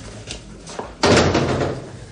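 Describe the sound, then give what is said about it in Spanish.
A door shut by someone entering stealthily: a few faint taps and then one muffled thud that fades into a short rumble. “abre la puerta a su consuegro. Este entra con sigilo y cierra.”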